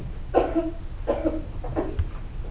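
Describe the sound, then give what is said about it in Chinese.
A person with a lingering cough coughs three times. The hoarse, fairly loud bursts are spaced roughly evenly over a low background hum. “就咳嗽有点久，不好意思”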